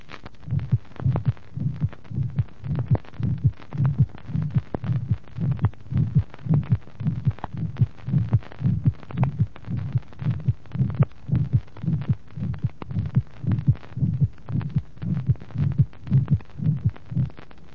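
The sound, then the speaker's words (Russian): Heartbeat heard through a stethoscope, with a brief systolic murmur of medium intensity at the second to third intercostal space along the left sternal border and a sharply loud second heart sound. Many regular thudding beats repeat in a steady rhythm. “При аускультации выявляется непродолжительный средней интенсивности систолический шум во втором-третьем межреберии по левому краю грудины. Второй тон резко усилен.”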